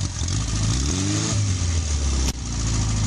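A Zastava 750 (Fića), a classic small car whose production ended in 1985, revs its engine with a buzzing, mid-pitched drone. The revs briefly climb and there is a short dip in sound near the end.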